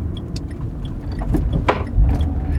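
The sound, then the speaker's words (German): Loose, unsecured items creak and knock inside a fast-moving car, with a few sharp crackles over a low road and engine rumble. “Es knackt hier, weil ich habe ja nichts festgebunden, fahre auch relativ zügig hier.”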